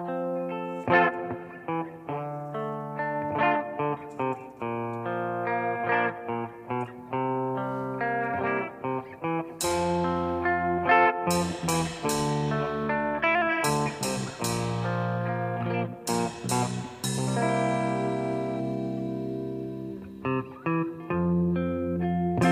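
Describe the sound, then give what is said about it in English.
Heavy reverb on a love song, with sustained harmonic notes that ring out with long tails. The music stays loud throughout and turns brighter with sharp attacks in the second half. “This is a love song, so wow, the reverb really makes it.”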